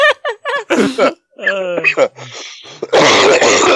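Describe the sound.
Throat clearing and coughing: a string of short, throaty vocal grunts and rasps, then a longer harsh, noisy cough burst at the end, loud and close.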